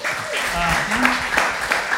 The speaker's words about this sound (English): Yeah, we can applaud that.